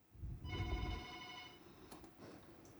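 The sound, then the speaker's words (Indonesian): A telephone rings for an incoming call: a single faint electronic ring, a steady buzzing tone about a second long over low rumble, followed by quiet background noise. “Dan di sini sudah ada penelpon ya, langsung saja kita angkat.”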